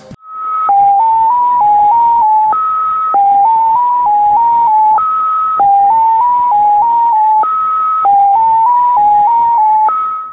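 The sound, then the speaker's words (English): Shortwave numbers station tone signal that uses a long dash in place of a break: a loud, steady electronic pattern of a long higher tone followed by a run of shorter stepped lower tones, repeating several times with no voices. “X07 has no break, and instead of the break, you have a long dash, and it sounds like this.”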